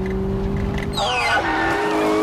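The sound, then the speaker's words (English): Tires squeal as a car swerves to dodge deer and spins out, a steady engine hum underneath and high, falling skid tones breaking in partway through and continuing to the end. “Several deer run in front of the car and Robert swerves. The car spins into a line of bollards.”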